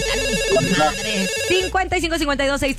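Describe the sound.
A telephone rings with an incoming call, giving a repeating electronic ringtone melody with steady tonal pulses and voices mixed in.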